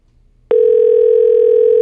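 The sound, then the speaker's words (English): A telephone tone on an outgoing call to a listener: a loud, steady electronic tone starts abruptly after half a second of near silence and holds at one even pitch to the end. “Never had to go three rings before. Pick up.”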